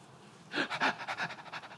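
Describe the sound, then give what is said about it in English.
A person demonstrates anxious breathing with short, rapid panting breaths, a quick run of many shallow puffs in an even rhythm, fairly soft and heard alone. “Somebody demonstrate how an anxious person breathes.”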